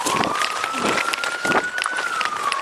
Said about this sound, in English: We join back up with the officer as they're running up the driveway.